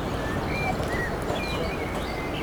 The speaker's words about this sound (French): Des oiseaux en coucou, la mer, un bateau au loin, des gens qui se baladent.